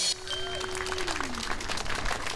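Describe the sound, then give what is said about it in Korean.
Audience applause and cheering called for after a strong performance: a steady, dense wash of clapping that stays even in loudness throughout. “자, 여기까지 큰 박수 함성 부탁드리겠습니다.”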